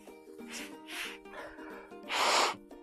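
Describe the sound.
Nose blowing by a man with a cold who is wearing a clip-on microphone: several short, faint, breathy blasts, with the last one the longest and loudest.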